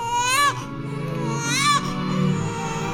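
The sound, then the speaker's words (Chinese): A newborn baby cries loudly in two sharp, high-pitched wails with a quieter pause between them, over a steady tonal background. “结界内，小婴儿哇哇地哭了起来，声音响亮有力。”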